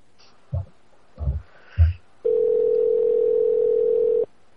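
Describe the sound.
Telephone ringback tone on an outgoing call: three soft thumps, then one steady, low-pitched electronic tone held for about two seconds before it cuts off abruptly.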